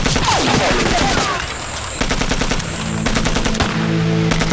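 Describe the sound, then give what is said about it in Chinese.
A Taisho Type 11 light machine gun fires loud automatic bursts, a rapid, even rattle of rounds broken by short pauses. Other sounds mix in beneath the harsh, crackling fire. “什么三八大盖啊？这是大正11式轻机枪，没有九二式的重机。”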